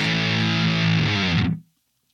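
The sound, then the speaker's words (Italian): A fuzz-distorted electric guitar holds one thick, buzzing, harmonically rich tone for about a second and a half, then cuts off abruptly into silence. “Questa è una specie di distorsione con fuzz, anche questa molto, molto adatta per il jazz,”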